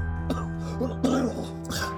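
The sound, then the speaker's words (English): A man coughs in a few harsh bursts while unwell and suffering coughing spells, spread over two seconds above a steady low hum. “I haven't been well lately, but these coughing spells don't usually last very long.”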